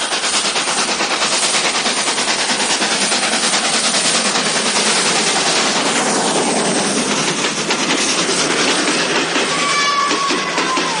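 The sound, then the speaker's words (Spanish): A train rolls over the tracks above a man lying between the rails, a loud, continuous roaring rumble packed with rapid metallic wheel clatter that stays steady for the whole stretch. “Alfredo se tumba sobre las vías cubriéndose los ojos con las manos y el tren pasa por encima de él.”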